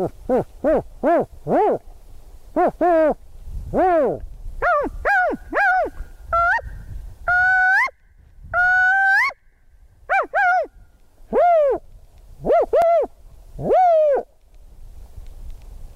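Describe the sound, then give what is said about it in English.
A human voice imitates spotted owl hoots during an owl survey, mixing call types into a long, irregular series of many short barking hoots and a few drawn-out, higher whooping notes, with nothing else heard. “What I like to do when I'm surveying for spotted owls and using my voice is kind of mix them all up and do something to the effect of”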